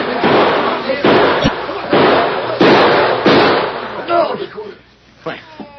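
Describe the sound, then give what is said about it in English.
Gunshots ring out in a gunfight: several loud, sharp bangs in quick succession, followed by quieter, scattered sounds as the firing stops. “I can't understand it. I'm sure those last two shots weren't mine.”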